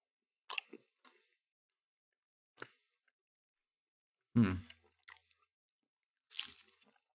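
Faint chewing of mild Munster cheese: about six short, soft crunching and squishy mouth sounds, spaced irregularly with quiet gaps between them.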